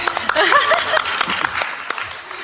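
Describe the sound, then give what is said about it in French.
Audience applause at a gathering of the Emmanuel Community: brisk, uneven clapping mixed with voices at first, then continuing more thinly toward the end. “On peut applaudir.”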